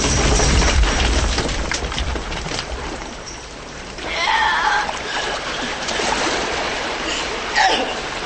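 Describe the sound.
Water splashing as people swim to the side, a steady churning wash with a few louder splashes rising out of the flow.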